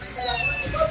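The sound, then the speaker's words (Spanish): A kitten gives a single short, high-pitched meow that lasts under a second, clear and with no talk over it. “¿Cómo habla? ¿Este gatito qué pasó?”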